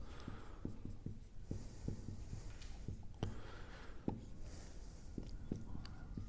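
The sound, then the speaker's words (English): Pen strokes scratch steadily as a table is drawn by hand, with many short, brisk scraping marks in an irregular rhythm and no talk. “medical people like tables and algorithms and things, so I'm just going to draw this up here.”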